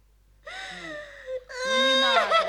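A small boy crying, a whimpering wail followed by a louder, longer sob with a strained, wavering voiced tone.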